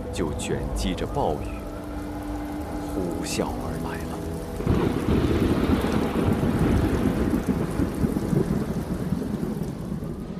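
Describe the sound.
Heavy typhoon rain and thunder in Yuhang in July. Mixed sounds give way about halfway to a dense, loud, steady roar of pouring rain with low rumbling that persists to the end.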